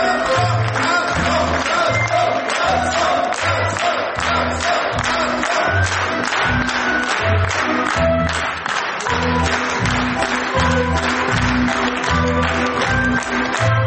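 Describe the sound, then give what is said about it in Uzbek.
Theatre audience applauding at the end of a play as the actors and director take their bows: dense, continuous, loud clapping from a large crowd that holds steady throughout. “Sahnaga chiqqan rejissyor Jurabek Ro'zmetov guldasta va olqishlar nishoniga aylandi.”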